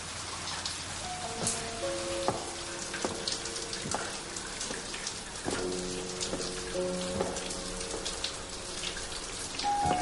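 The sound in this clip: Water runs from a shower, a dense, steady spray pattering continuously over a surface as a woman sits beneath it in her party dress.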